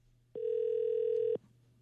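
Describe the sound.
A telephone ringback tone while a call connects: a single steady, pure tone lasting about one second, faint and alone, starting and stopping abruptly.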